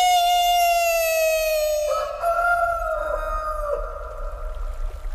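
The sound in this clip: A rooster crows with a single long, drawn-out harmonic call lasting about five seconds, loud and steady at first. Its pitch sags slightly and it turns rougher as it fades.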